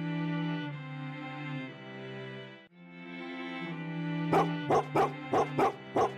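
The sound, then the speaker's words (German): Huskies whine in long, wavering howl-like tones, then break into a run of about six sharp, loud barks in quick succession. “Nicht nur, weil sie während der nächsten Stunden immer wieder den einen oder anderen Husky hören werden”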